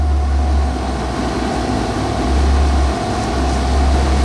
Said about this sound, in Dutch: Inmiddels staan we nu eh, buiten eh, bij de stal. En we zijn aangekomen eigenlijk bij de machine die zorgt voor de derde meststroom. we noemen deze machine de N-Capture.